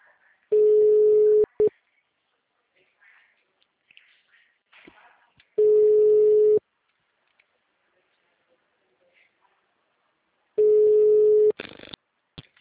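Telephone ringback tone on an outgoing call: three long, steady single-pitch rings, each about a second, evenly spaced by quiet gaps with faint background noises, then a short burst of clicks at the end.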